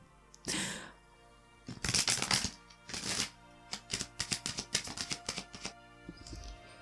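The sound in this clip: Cards being drawn and handled from a Romance Angels oracle deck: many sharp, irregular papery flicks and snaps in quick clusters, heard alone without talk.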